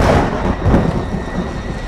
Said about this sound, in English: Thunder rolls across the sky.